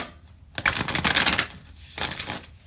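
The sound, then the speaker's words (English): Tarot cards being shuffled and drawn: two bursts of dry papery riffling and slapping, the first longer and louder, separated by a short pause. “So we're gonna run the cards on the Chiq. Spirit guides. Angels. Ancestors. Give me three cards here.”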